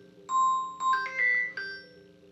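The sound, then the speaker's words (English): A phone rings with a few bright electronic chime notes, clean and fairly soft, over a low steady hum. “phone ringing.”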